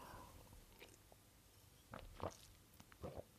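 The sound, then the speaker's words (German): Someone takes a quick drink: quiet gulps and small mouth clicks in near silence, growing a little stronger toward the end. “Ein Momentchen, ich trinke mal ganz kurz hier.”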